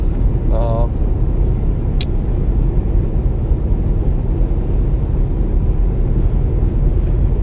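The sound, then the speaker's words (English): Steady low rumble of a car driving on a road in Kansas, a constant road and engine drone that holds at the same loud level throughout. “telling you about random towns in Kansas that I'm driving through.”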